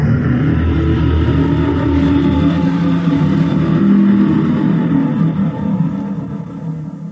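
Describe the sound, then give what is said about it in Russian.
A dragon's roar sweeps over a lake as a deep, loud, sustained rumbling roar that holds steady for about seven seconds without a break. “Рев пронесся над озером, и сразу двое ближайших драконов повернули ко мне головы, а через секунду, толкнувшись мощными ногами и ударив огромными крыльями, взлетели.”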